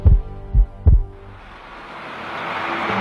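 Heartbeat thumps: three deep, low thuds within the first second, followed by a broad hiss that swells steadily to the end.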